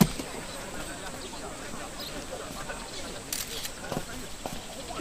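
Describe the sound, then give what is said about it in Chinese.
Camera shutters clicking as people take photos, a few faint, sharp clicks scattered through dense, hissy crowd noise with voices talking. “不要拍照， 别拍了，别拍了”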